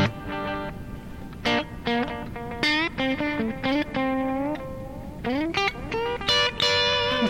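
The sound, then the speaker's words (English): Electric guitar played through a modulated reverb and delay pedal: a slow run of single notes, sliding bends and a few chords, each ringing into shimmering, lingering tails with short gaps between phrases. “So it's a modulated reverb delay. Tank modulation and delay kind of. Yeah, it has separate controls for the reverb and the delay, so you can use one or the other.”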